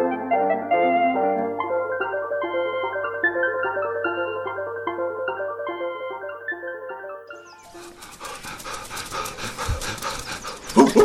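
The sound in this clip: A dog pants heavily in an audio story. The quick, breathy puffs start after a long stretch of melodic music and repeat rapidly and loudly until the end, and the music stops as the panting takes over.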